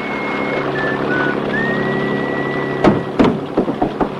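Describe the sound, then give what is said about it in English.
Steady droning engine hum of a boat motoring out to sea, with a thin whistling tone above it and several sharp clattering knocks near the end. “Later, the Queen Conch motors out to sea with Harry at the wheel.”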